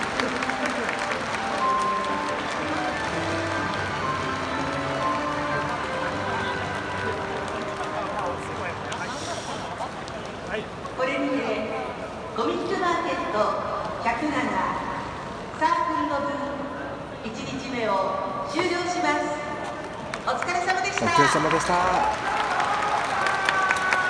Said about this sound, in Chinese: 好啦，完了，这个就第一日完了。我不知道大家听唔听声啦，拍手掌。 传统啊，呢啲系。